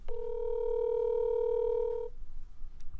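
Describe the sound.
A telephone dial tone hums while a call is being placed: a steady, clear, continuous tone for about two seconds that cuts off abruptly, followed by faint clicks.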